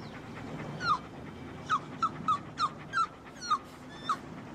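Dogs covered in mustard from their snacks whimper in eight short, high-pitched whines spread unevenly over a low, steady background hum.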